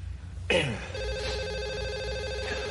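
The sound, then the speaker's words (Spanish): A telephone in a control center starts ringing with a sudden onset, then holds a steady electronic ringing tone over a low background hum. “Justo antes de salir, el teléfono suena.”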